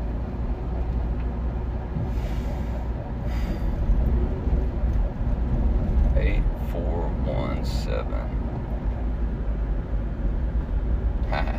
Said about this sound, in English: I'm driving past this building